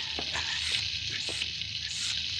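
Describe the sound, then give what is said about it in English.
Steady hissing roar of a blacksmith's forge fire hot enough to melt gold bars, a dense crackling sizzle that holds at an even level for the whole stretch with no talk over it. “The fire in that forge is too hot for me”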